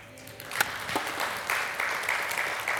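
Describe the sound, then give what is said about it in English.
Audience applause greets a woman as the group is asked to give her a hand, steady clapping that holds at an even level for the whole clip. “Give her a hand.”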